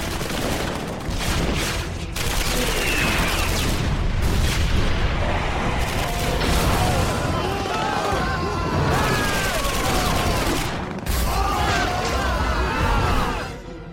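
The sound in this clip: Dense gunfire fills an animated action scene right after an order to fire, a continuous loud volley of rapid shots with shouting voices mixed in.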